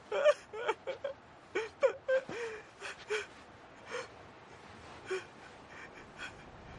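A man held by several guards weeps inconsolably, with many short gasping sobs and pitched whimpers coming in uneven bursts, some louder and some fading.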